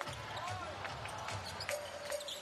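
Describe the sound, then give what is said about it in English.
A basketball being dribbled during a professional game: several sharp, quick bounces on the court, fairly faint, over a steady low background hum. “And Evans fakes and will dribble it up.”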